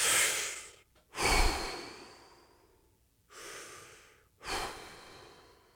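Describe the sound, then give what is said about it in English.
Slow, deep breaths taken in and out, four long breathy swells separated by short pauses, soft and airy with no talking. “Deep breaths. Deep breaths. Take a few with me.”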